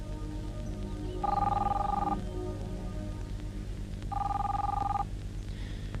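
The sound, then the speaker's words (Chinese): A telephone bell rings in two separate bursts, each about a second long, with a pause between them. The ringing is clear and moderately loud over a steady low hum. “你不想接电话？”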